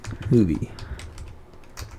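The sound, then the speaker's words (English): Typing on a computer keyboard to enter a search: a quick, uneven run of light clicking keystrokes, moderately loud, with a brief voiced sound near the start. “Okay, so type in Arnold's Park”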